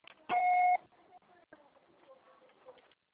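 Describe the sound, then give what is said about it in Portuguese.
A voicemail recording system sounds one short, steady electronic beep with a pure mid-pitched tone and bright harmonics, followed by faint low-level line noise. “Grave seu recado. Sua sessão será tarifada após o sinal.”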